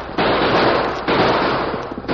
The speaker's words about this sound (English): Jake and Big Bill opened fire, then started down the trail at a fast pace